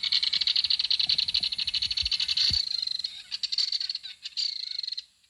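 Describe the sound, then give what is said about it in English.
A belted kingfisher call from an old 1958 tape recording, a loud, rapid mechanical rattle of many sharp, high pulses that runs steadily, then breaks into shorter stuttering bursts toward the end. “So if you open up Merlin, down here is a call of belted kingfisher from 1958, which is certainly a tape that's in this room right now. You play it.”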